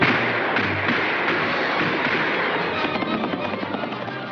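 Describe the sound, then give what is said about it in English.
Cartoon warning gunshots ring out as a dense, continuous barrage of cracking, thumping pops that run together without pause for several seconds, loud throughout. “Yosemite Sam may get a lot of laughs with his warning shot bit”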